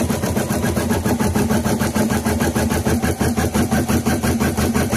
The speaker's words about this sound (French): c'est le bruit d'une machine à broder, comme Romane et Eleonore